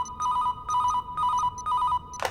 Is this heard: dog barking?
no